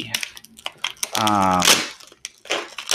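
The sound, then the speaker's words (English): Bubble wrap is torn open to get at a hardcover game book, giving a string of sharp crackles and snapping pops. A voice sounds briefly in the middle. “you can hear me probably at this point tearing open the bubble wrap to get at”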